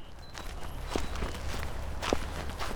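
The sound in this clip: Faint footsteps of people walking across a road beside a wastewater treatment plant: a few soft, sparse steps over a steady low outdoor rumble, with no talking.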